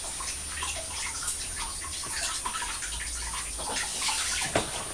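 Strawberries are washed under running tap water. The water gives a steady, splashing rush with small gurgles and drips, fairly quiet and even throughout, with no talking.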